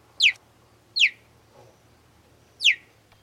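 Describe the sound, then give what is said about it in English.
Cheetah chirps: three short, high, bird-like downward-sweeping calls, evenly spaced, clear and fairly loud over a quiet low hum, with no talk. “No, that wasn't a bird chirping. That was actually a cheetah. Most people expect these cats to sound more like a lion or a tiger. But actually, the most common sound they make are these cute little chirps.”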